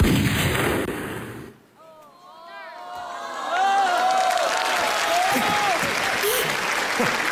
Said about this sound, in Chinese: 谁开枪啊？ 谁开？ 是我。